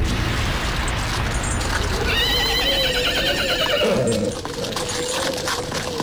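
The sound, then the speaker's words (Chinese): A horse neighs as a horse-drawn carriage pulls up outside a shop: one loud, quavering whinny with a falling tail over steady background noise, with faint hoof clip-clop. “此时马车已经到了店外”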